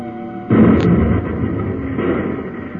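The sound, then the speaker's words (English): A blast from explosive pellets set off with a hand detonator in a cavern, starting with a sudden loud boom and rolling into a heavy, sustained rumble that lingers to the end. “I'll use a few explosive pellets from this hand detonator.”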